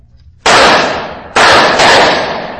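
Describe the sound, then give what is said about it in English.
Three sharp gunshots are fired at barrels, each a loud crack with a long ringing decay. The first stands alone, and the second and third follow close together about a second later. “Oh, it's gushing from the barrels where I shot.”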